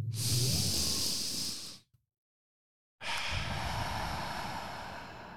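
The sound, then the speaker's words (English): A deep breath taken together: two long, loud, breathy rushes of air, each nearly two seconds, separated by about a second of silence. “Let's take a deep breath together okay, before we do this.”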